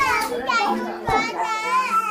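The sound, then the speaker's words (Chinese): Lively high voices of three young children welcoming visitors at a family home, their chatter and sing-song calls running on without pause. “这一天，我们走进的是红豆的家，三个年幼的孩子用热情的奔跑、分享饼干还有唱歌欢迎我们到来。”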